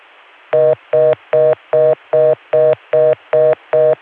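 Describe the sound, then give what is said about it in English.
Telephone dialing tones on a long-distance call from a Chicago line to Richmond. Nine loud, buzzy tone bursts, each about a fifth of a second, follow in an even, quick rhythm over faint line hiss. “This time I got a Chicago dial tone and tried calling Richmond”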